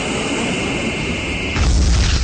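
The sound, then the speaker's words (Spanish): A bomber plane is shot down in a radio drama battle scene and crashes in flames onto the ruins of Colegio Normal 1. A steady, roaring wash of noise with a thin high whine gives way to a loud, deep rumbling boom that keeps going to the end. “hasta que un enorme destello lo derriba y cae incendiándose sobre los restos del Colegio Normal 1.”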